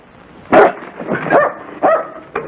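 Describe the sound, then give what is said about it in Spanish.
A dog barks a few times in short, sharp, loud bursts with brief gaps between them, ending with a clipped final bark. “¡Hey! Espera, espera, espera. No ladres, no ladres.”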